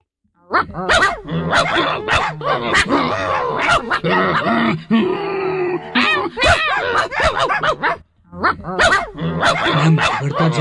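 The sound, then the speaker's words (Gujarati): A human voice imitates two dogs growling and barking at each other in a fight, rough guttural growls mixed with bark-like bursts running almost continuously for about ten seconds with a couple of short pauses. “એકબીજાને ઘૂરકીને સામ સામે ભસવા લાગ્યા, ભસવા લાગ્યા, અટકે જ નહીં.”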